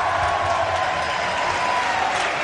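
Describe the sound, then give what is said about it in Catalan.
A football stadium crowd applauds and murmurs as the lineup is announced before the players take the field, a dense, continuous roar of clapping and crowd noise. “Aplaudiments per Gerard Piqué ara que s'està cantant l'alineació abans que surtin els futbolistes al terreny de joc.”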